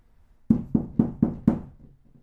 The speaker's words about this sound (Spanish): Es que están tocando la puerta.